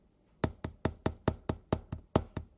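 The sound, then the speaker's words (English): Someone knocking: ten sharp, evenly spaced raps in a quick, steady rhythm, with no voices. “Who is that? It's somebody knocking.”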